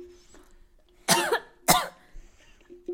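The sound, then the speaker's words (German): Two sharp, loud coughs from a person choking on saliva, about half a second apart, followed by quieter throat noises against a faint background. “Ich habe mich an meiner Spucke verschluckt.”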